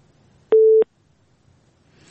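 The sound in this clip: A telephone busy tone sounds after a dropped call: one flat, steady beep lasting about a third of a second, then near silence with faint noise rising at the very end.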